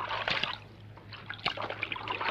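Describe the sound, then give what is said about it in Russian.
Water sloshes and splashes as a monkey washes a towel in a water-filled bathtub, with irregular soft splashes and drips that swell and fade, a few sharper splashes standing out. “Обезьяна стирает полотенце в наполненной водой ванне. Выжимает, потирает лоб.”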